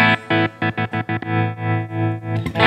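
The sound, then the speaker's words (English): Guitar played through a tremolo effect, the chord's volume pulsing rapidly on and off in an even, choppy rhythm, then ringing more steadily before a fresh strum near the end. “This is the tremolo.”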